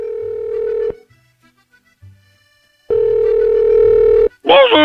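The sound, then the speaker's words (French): Ringback tone of a call placed to a mobile phone: two loud steady tones of the same pitch separated by near silence, the second lasting about a second and a half, followed by a voice starting at the end. “on va essayer de le joindre, on va essayer de l'appeler. Hein. On l'appelle hein, sur le portable de Jean-Michel.”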